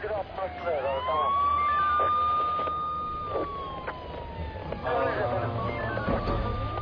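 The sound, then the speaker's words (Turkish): An ambulance siren wails loudly on arrival, a long sliding electronic tone that dips and climbs again over a bed of steady background noise. “Ambulans geldi efendim.”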